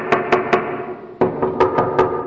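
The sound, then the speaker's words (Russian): Loud, sharp knocking on a door: three evenly spaced raps, a short pause, then a longer run of about five raps at the same steady pace. “как в дверь постучали”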